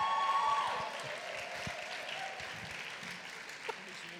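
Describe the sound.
Audience applause welcoming a pastor to the stage, a wash of clapping that is loudest at the start and gradually tapers off.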